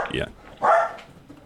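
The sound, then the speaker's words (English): Dogs barking at nothing at the door, a couple of short, sharp bursts separated by a brief pause, fairly loud against a murmuring background. “Sorry, dogs. There's nothing at the door, so they decided to bark.”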